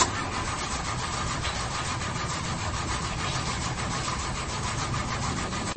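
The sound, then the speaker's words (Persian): A car engine cranking but failing to start, producing a steady, unbroken whirring churn that runs on for several seconds without catching. “داداش از صفحه کلاجشه متوجه ای؟ آقا استارت نمیخوره.”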